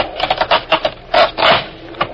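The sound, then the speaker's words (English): A wooden floorboard is pried up in an old shack, giving several short dry creaks, then two longer straining wood-on-wood groans and a final brief knock. “All right, pull that floorboard up all the way.”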